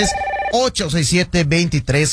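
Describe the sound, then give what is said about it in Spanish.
A telephone rings briefly with an incoming call: a short, steady tonal burst is followed at once by a voice speaking. “Tenemos la primera llamada de la noche en este jueves.”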